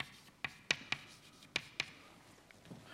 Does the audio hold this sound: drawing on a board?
yes